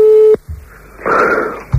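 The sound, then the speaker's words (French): Telephone ringing tone on a call that goes unanswered: a steady low-pitched tone cuts off soon after the start, then a quiet gap with faint noise, and the next ring begins just at the end. “Là, ça sonne, mais ça décroche pas”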